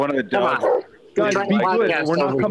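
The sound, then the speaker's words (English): Dogs bark from across the street in short bursts, mixed in with people talking over them. “Argument with dogs across the street.”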